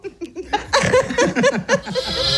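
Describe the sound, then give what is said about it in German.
Sheep bleating, two animals kept apart from the rest of the flock: loud, wavering, overlapping bleats that run into one another throughout. “gegenüber sind 2 Schafe, die sind getrennt von allen anderen Schafen”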